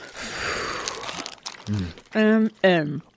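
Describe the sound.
Throat clearing from a small piece of cartilage stuck in the throat while eating spicy food: a rustling, noisy start, then low rasps and two strained, voiced grunts at the end.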